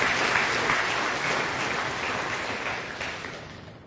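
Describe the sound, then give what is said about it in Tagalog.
Congregation applauding in church: a dense, steady clapping that stays loud and eases off slightly toward the end. “Palakpakan natin ang Panginoon, mga kapatid, sa kanyang kabutihan.”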